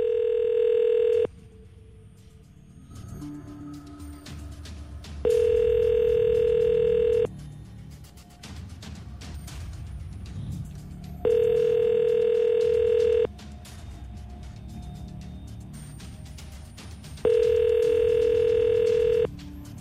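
Telephone dial tone heard while placing a live call to the municipal guard: four steady, even beeps of about two seconds each, separated by longer gaps of faint background noise.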